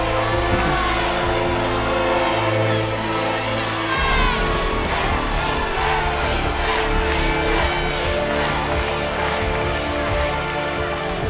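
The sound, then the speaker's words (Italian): Stadium crowd chanting at a football match, a loud, sustained massed chant of many voices that carries on without pause, with its tune changing partway through. “Il pubblico sembra inneggiare Avetic, no?”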